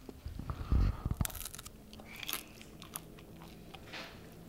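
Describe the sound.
Crisp bite into a Butterbrezel, a pretzel with a thin lye-baked crust spread with cold butter, one sharp crackling crunch followed by several softer chewing crunches.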